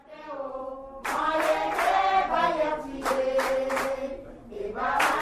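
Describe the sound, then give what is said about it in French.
A welcome song sung by a group of victims at the Centre Jean 23, many voices singing together in sustained, harmonized notes with steady loudness throughout. “Après ce chant d'accueil”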